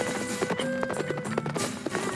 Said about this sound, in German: Wir bestiegen die Pferde und ritten los.